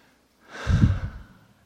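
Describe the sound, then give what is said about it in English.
One slow, deep breath swells to a full, airy rush and then fades out gradually. It stands alone against near silence. “Why don't we all take a deep breath, okay?”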